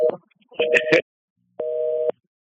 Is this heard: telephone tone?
yes